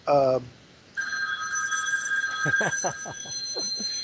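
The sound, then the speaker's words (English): A telephone rings loudly: a short harmonic burst, a brief gap, then a sustained bright electronic ringing tone that holds to the end, with talk underneath in the second half. “that's a loud ring. I'm sorry about that phone.”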